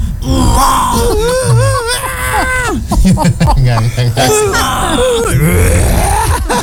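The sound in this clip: A voice imitates a newborn baby's growling cry in loud, strained, gravelly moans and wails. The pitch wavers and bends, and the bursts repeat in quick succession.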